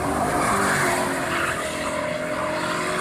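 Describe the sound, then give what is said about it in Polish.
A BMW speeds into a road tunnel in Gdańsk. Its engine roars loudly and continuously throughout, with a harsh, hissing, squealing edge from the tires and no pauses or voices. “23-latek w Gdańsku wsiadł za kierownicę swojego BMW i ruszył do tunelu pod Martwą Wisłą mniej więcej tak.”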